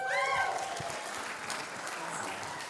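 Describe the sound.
A church audience applauds to welcome a guest speaker, with steady, dense clapping throughout and a brief voiced cheer near the start.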